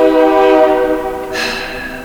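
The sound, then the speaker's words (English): A train horn sounds in one loud, sustained blast of stacked harmonic tones as a train passes by. The tone shifts partway through, then carries on slightly quieter to the end. “Oh, train going by.”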